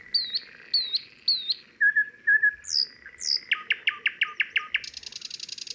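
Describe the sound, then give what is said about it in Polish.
Chaffinch and nightingale song: clear, varied whistled phrases repeated in short bursts, then rising notes, a quick run of sharp chirps and a fast, buzzy rattling trill at the end, with no voices. “Teraz pora na ziębę i słowika.”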